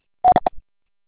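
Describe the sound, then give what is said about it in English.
Brief electronic beep tones from a voicemail greeting on a mobile mailbox, heard as a few short mid-pitched blips in quick succession, followed by silence. “Bitte sprechen Sie Ihre Nachricht nach dem Tonsignal.”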